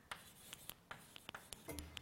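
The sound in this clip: Handwriting on a board produces many short, faint scratchy strokes and taps in a quick, uneven rhythm, heard alone without talk.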